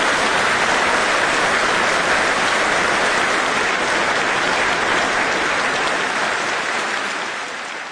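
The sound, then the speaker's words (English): Audience applause rises as a dense, continuous wash of clapping for the show's engineers, holding steady and easing slightly toward the end. “please join me in giving a warm round of applause for our brilliant engineers”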